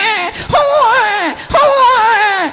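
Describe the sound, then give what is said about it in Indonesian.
A voice imitates a newborn baby crying, giving two drawn-out, high, wavering wails separated by a brief catch of breath, loud and alone. “Suarane napa niku, Bu? Bayi jare Anwar Zahid.”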